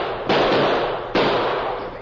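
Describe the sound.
Gunshots fire in an old western drama as a gun is shot out of a man's hand: two sharp, loud cracks less than a second apart, each trailing off in a long decaying rumble.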